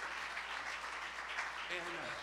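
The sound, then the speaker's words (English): An audience clapping in praise at a church revival meeting: a faint, steady, dense wash of applause, with a voice briefly rising near the end. “Give the Lord a hand clap of praise for allowing us.”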